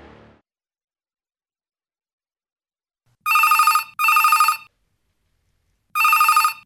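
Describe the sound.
A telephone rings before a radio call-in is answered, giving three loud electronic ring bursts: two close together, then a pause before the third. No one talks between the rings.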